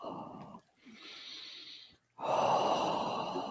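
Breathing through a brand-new face mask: three breathy, rushing breaths separated by short pauses, the middle one softer and hissier, the last the loudest, with no talking.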